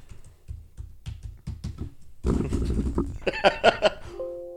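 Typing on a computer keyboard: a run of quick, evenly spaced soft clicks, after which louder, busier noise takes over with a few bright ringing tones near the end.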